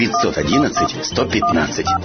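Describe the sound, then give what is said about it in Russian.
Touch-tone beeps of a phone number being dialled in a 1990s radio advert for a Vladivostok taxi firm: several short, bright paired tones come in quick succession under continuous talking. “Звони скорее, 511-115. Ага, звоню.”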